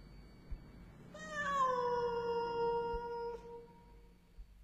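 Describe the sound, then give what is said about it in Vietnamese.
A cat in a yard lets out one long, plaintive meow with a clear tonal, drawn-out cry that sinks slightly in pitch as it fades, heard alone over faint background noise. “con mèo vẫn ngồi ở sân, ngửa mặt, đôi mắt xanh lè lè nhìn lên, mà kêu lên mấy tiếng ai oán”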